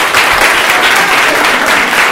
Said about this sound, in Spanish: yo voy a pedir un aplauso para este hombre automáticamente.